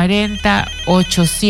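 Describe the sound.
A telephone ringtone signals an incoming call, playing a few short, bright electronic notes in a bouncing, melodic pattern with brief gaps between them.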